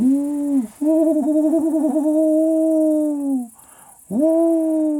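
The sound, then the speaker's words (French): Tawny owl hooting: three clear, hollow hoots, a short one, then a long steady hoot with a quavering middle, then another, over a faint high hiss. “Ça, c'est la chouette ulotte.”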